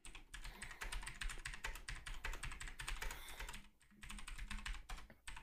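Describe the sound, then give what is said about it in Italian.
Quiet, rapid typing on a computer keyboard as a message is written: dense clicking keystrokes run almost continuously, with a short pause about two-thirds of the way through and no talking. “Aspetta, scrivo a Enzo.”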